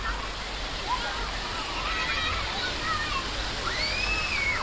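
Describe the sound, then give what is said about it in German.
Steady rushing water from the fountain in the Lustgarten in Berlin, where children splash in summer. The spray holds an even, dense wash of noise throughout, with faint higher voices drifting over it. “Im Sommer planschen Kinder aus aller Welt vergnügt an der Fontäne im Lustgarten.”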